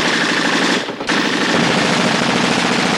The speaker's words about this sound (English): Crouching behind the wall, the members of the platoon lay down a relentless salvo.